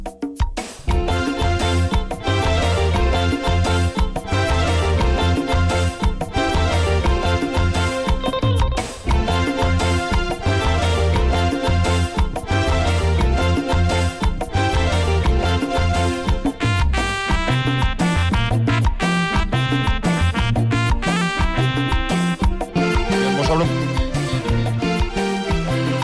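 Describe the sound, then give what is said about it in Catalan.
Taarab music from the Swahili coast, a blend of African, Arab and Indian sounds, played by a full ensemble as a dense, steady, rhythmic stream of melody and percussion that fills the whole passage. “Avui, és vera que aquesta tradició continua viva en la música taarab, que és música que mescla sons africans, àrabs, indis, i on cada lletra és sempre una història d'amor, o de la mà, o de nostàlgia, i el taarab sona així.”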